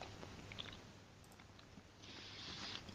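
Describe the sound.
Faint, soft chewing of peanut butter toast, a steady run of moist, lightly crunchy bites and squishes that go on throughout with no talking.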